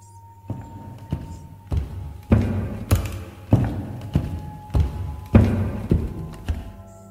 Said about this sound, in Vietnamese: tôi nghe có tiếng chân người thình thịch đi lên cầu thang.